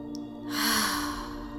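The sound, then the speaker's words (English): A slow, deep breath drawn in through the nose comes as one long airy inhale that swells after a brief quiet start and then tapers, over a faint steady hum. “So we'll take 3 deep cleansing breaths together. So breathing in through the nose,”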